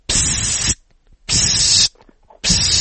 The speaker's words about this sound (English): If you want to go fast, the injectors are going to sound like this.